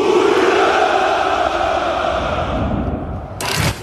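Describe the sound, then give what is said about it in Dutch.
A crowd gives a drawn-out, massed shout of hurrah at a Russian Victory Day celebration of the Second World War win. The long chorus of voices slowly fades, then a sharp, louder burst comes near the end. “De jaarlijkse hoera voor de overwinning in de Tweede Wereldoorlog klinkt dit jaar toch net iets minder overtuigend.”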